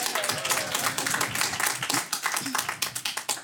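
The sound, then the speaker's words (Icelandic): Audience clapping at a quiz competition for a team's correct answer: brisk, uneven claps from many hands, with faint voices mixed underneath. “Þið meði klappa fyrir þeim sko.”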